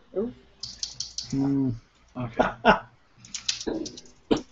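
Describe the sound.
Typing on a computer keyboard during a tabletop role-playing game session. Irregular bursts of quiet clicks and taps are broken up by a brief voiced hum partway through.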